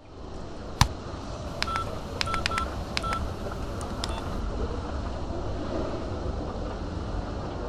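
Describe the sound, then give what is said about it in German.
Intercom call dialing tones: a quick series of short, bright beeps, a few in rapid succession, over a steady low rumble, with no voices. “Kommissar Klöppel macht sich auf den Rückweg zum ISD und ruft Helga über das Intercom”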